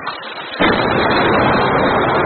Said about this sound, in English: Footage posted on the internet Tuesday purports to show the shelling of residential districts in Homs and Damascus.